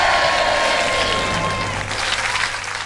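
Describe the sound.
Applause from an audience welcoming singer Anup Jalota, a dense, steady clatter of clapping that slowly eases off toward the end.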